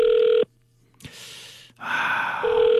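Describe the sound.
Ringback tone of an unanswered phone call to a son: a steady, mid-pitched electronic beep that cuts off, gives way to a soft breathy rustle, then sounds again.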